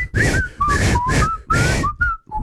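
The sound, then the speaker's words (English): A person whistles a TV theme tune in a few short, clear phrases with gliding, sliding notes, heard alone. “I just knew it by the whistle. I've never really watched the show. This whistle?”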